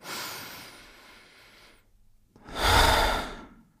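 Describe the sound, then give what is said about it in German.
Slow, audible breathing during a guided relaxation exercise: an airy breath drawn in through the nose, a brief pause, then a fuller, louder breath pushed out through the mouth. “Lass noch einmal zusammen durch die Nase ein- und durch den Mund ausatmen.”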